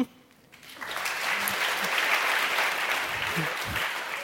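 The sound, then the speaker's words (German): Sustained applause for two visiting Nigerian sisters, a novice and a sister of the Lady of Fatima Sisters from Jos, abroad for the first time. It swells up after a quiet opening and then stays dense and steady to the end. “Insbesondere die beiden Schwestern brauchen jetzt einen extra Applaus.”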